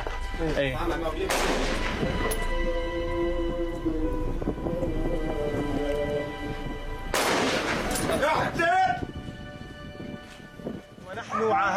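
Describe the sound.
Gunfire during combat, aimed at the inside of a building through its open side. Two loud, sharp bursts stand out, several seconds apart, against a continuous noisy background.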